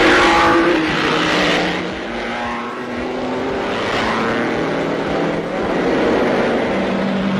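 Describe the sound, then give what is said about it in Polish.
Alfa Romeo racing cars roar through the first Formula One world championship race, the Grand Prix at Silverstone: a loud, continuous engine drone that swells and eases as the cars pass. “Fangio in number one is still out front. Down goes the checkered flag for first man home. And it's Alfa Romeo's number two, Giuseppe Farina.”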